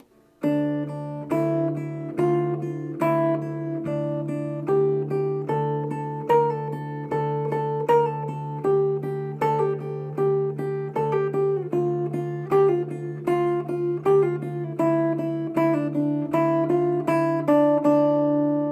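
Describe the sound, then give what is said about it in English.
Guitar in D minor tuning plays D minor scale notes on the high D string over a steady low D string bass accompaniment, with many plucked notes in a flowing, even rhythm at moderate loudness and no talking. “what I want you to do is start using the low D string as a bass accompaniment. And that could sound something like this.”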